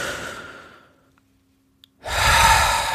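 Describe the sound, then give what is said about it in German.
Deep breaths in a guided breathing exercise: a long airy exhale fades out into near silence, then a strong, loud breath sound starts abruptly and carries on to the end. “Und jetzt können wir einfach mal zwei, drei tiefe Atemzüge nehmen miteinander, so wie wir es so ganz oft machen.”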